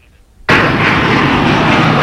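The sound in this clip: An airplane landing sound effect bursts in after a brief quiet lead-in as a sudden, loud, broad rushing roar that stays dense and steady to the end.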